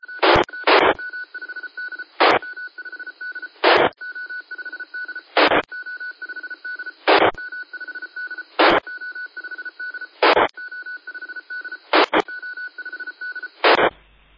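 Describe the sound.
Tone beeps keyed repeatedly over a ham radio frequency: a steady mid-pitched tone hums under static while loud keying bursts of noise cut in at regular intervals of roughly a second and a half, with no talk.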